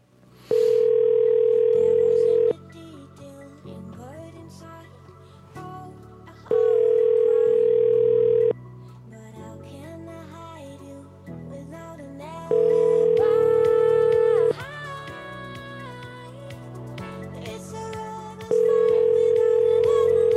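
Telephone ringback tone on a call to a number in Philadelphia: four long, steady, mid-pitched tones of about two seconds each, spaced by longer gaps, with quieter background sound between them.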